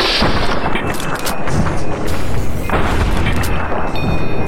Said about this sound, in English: But now he turns around and starts shooting back.